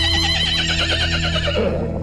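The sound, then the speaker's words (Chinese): A carriage horse neighs in a loud, wavering whinny that lasts the whole clip. The shaky, high cry trails off and loses strength toward the end. “老郑扬鞭策马，马车绝尘而去”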